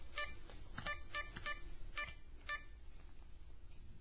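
A telephone keypad dialled to make a call, giving a quick, irregular run of short touch-tone beeps, fairly faint over a low background rumble.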